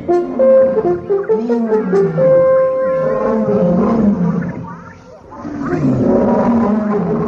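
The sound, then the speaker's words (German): A lion roars during a safari, a loud, sustained and rumbling roar that dips briefly in volume before swelling again. “Ein Löwe kam näher.”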